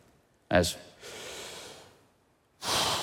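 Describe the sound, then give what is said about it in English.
Slow, deep human breathing: a sharp, fairly loud inhale, then a long, soft, airy exhale, followed by a pause and the start of another strong inhale. “I just take deep breath, slowly in, slowly out.”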